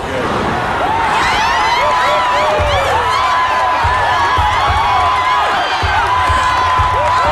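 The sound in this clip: A jubilant crowd cheers at a political rally, a loud, unbroken roar threaded with shrill whistles and whoops that rise and fall over the whole stretch.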